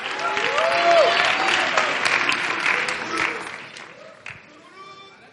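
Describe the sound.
An audience applauds to welcome a speaker about to share a testimony. Steady, full clapping holds, then thins and fades toward the end.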